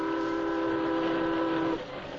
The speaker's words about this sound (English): As you say, the train isn't slowing down at all.